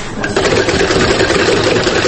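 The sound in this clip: A sewing machine runs at a sewing course for young people with disabilities, producing a loud, continuous, rapid mechanical whirring at an even pace with no pauses.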